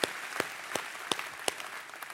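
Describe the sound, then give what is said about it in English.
A church audience applauds during a service, a soft, fairly faint wash of clapping punctuated by several sharper individual claps. “Come on, church, one more time. Can you put your hands together? Welcome each other today.”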